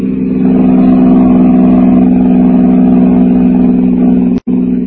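Engine drone of a taxi cab driven fast toward 71st Street, a loud, steady low hum with even tone throughout, briefly cutting out just before the end.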